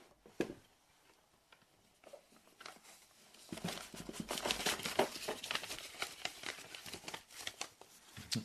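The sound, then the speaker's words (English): Paper rustling and crinkling as an envelope is dumped out, faint scattered ticks at first, then a denser, quiet patter of rustles. “I just dumped an envelope.”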